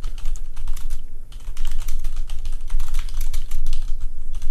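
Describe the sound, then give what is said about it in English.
Fast typing on a computer keyboard: a dense, steady stream of many clacking keystrokes with short pauses, loud and clear with no voices. “Let's get this guy's nice keyboard sounds in the podcast.”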